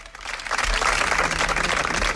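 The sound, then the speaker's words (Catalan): Applause closes a morning protest gathering of about fifty people outside the gates of a public school. It is a dense, steady patter of many hands clapping at even loudness from start to finish. “Són els aplaudiments que han tancat la concentració de mig centenar de persones aquest matí a les portes de l'escola pública Àngel Guimerà”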